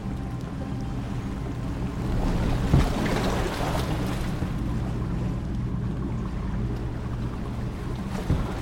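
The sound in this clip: A boat on open water gives a steady low rumble mixed with washing water and wind noise, holding an even level throughout with no voices.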